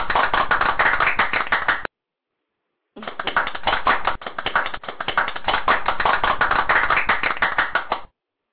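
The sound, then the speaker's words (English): Audience applause for a woman who has just spoken. Dense clapping breaks off for about a second after two seconds, then resumes and carries on until near the end. “ladies and gentlemen, give her a hand”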